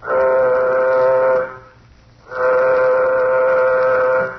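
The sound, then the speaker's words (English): Two long, steady horn-like blasts of a spaceship's warning signal in a science-fiction drama. Each blast is rich and buzzing and lasts about a second and a half, with a short quiet pause between them and no voices. “Well, gentlemen, the moment has arrived. Sound warning signal. Sound warning signal.”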